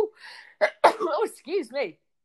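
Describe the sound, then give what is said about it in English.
A single sharp, noisy sneeze bursts out, followed by a person speaking. “Oh, I'm so sorry. I don't normally sneeze.”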